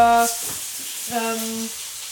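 Sardines fry skin-side down in a pan, a steady soft sizzle and crackle hissing throughout, with two brief tonal sounds rising above it.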